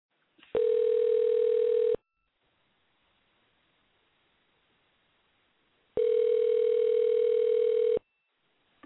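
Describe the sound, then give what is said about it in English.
A telephone tone after a number is dialed plays as two long, steady beeps of about one and a half seconds each, separated by a silent gap of several seconds, at a fairly low level. “Dialing. Here we go.”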